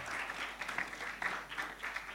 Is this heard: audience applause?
yes